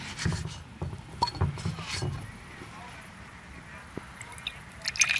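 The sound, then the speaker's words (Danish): Liquid pouring and dripping as dark beer from 2010 is poured from a freshly opened bottle, a soft, uneven trickle with scattered drips, while murmured voices sound near the start. “Skal vi ikke lige prøve at så knappe den op og få hældt op og så smage lidt på den?”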